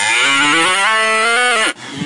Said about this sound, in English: Whoa, what kind of cow is that? That's an auto-tune cow.